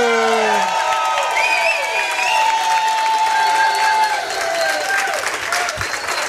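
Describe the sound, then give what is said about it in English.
Standing ovation for a Pro Football Hall of Fame linebacker: a steady, loud wash of crowd applause and cheering, with voices calling out over it throughout. “And a standing ovation for number 63.”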